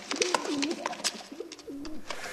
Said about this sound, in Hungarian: Galambászok! Röptessétek el a madarakat!